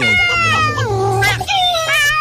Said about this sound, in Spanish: venga para acá la gatica. Vean, no le hemos puesto nombre a la gatica.